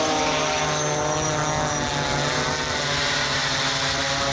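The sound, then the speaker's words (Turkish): Steady propeller buzz from an Iranian kamikaze drone in flight, a dense, even drone rich in harmonics that holds at the same loud level throughout, with no voices. “İran balistik füzelerle beraber kamikaze dronlarla ABD-İsrail saldırılarına karşı koymaya, teknolojik dezavantajını kapatmaya çalışıyor. Körfez ülkelerinde bu ses endişe yaratıyor.”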